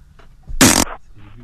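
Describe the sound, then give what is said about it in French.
A single loud, wet fart bursts out for about a quarter of a second and then trails off quickly, standing alone between quiet stretches. “Ça te dérange pas si je pète? Oh, tu vas me péter.”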